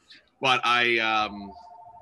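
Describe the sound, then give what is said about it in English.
A mobile phone goes off during a conversation with a brief, bright electronic tone with a buzzy edge, followed by a softer, steady tone held to the end. “apologize for my phone there”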